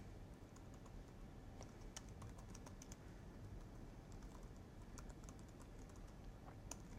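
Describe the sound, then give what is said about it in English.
Fast typing on a computer keyboard while writing D3 code: many quick, irregular key clicks, faint and continuous, with a few sharper taps standing out. “I'm going to type this out and then explain it.”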